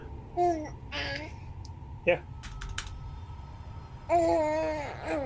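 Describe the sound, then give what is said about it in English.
Baby babbling and cooing in a few short, high-pitched vocal bursts separated by pauses, with a brief sharp click in between, over a low background hum. “should I be muting myself or do the baby noises add to the experience?”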